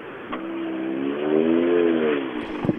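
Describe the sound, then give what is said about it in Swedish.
A Ford turbo rally car drives past, its engine note swelling to a loud, sustained drone and then dropping away as it passes, with no talk over it. “Ja, det kommer en här nu, en Ford med turbo.”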